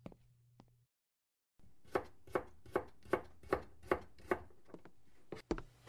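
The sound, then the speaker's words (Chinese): Knife chopping on a board while someone cooks in the kitchen: a steady, evenly spaced run of sharp thuds, then a brief pause and two more quick chops. “你再休息一会儿吧，我去做饭。”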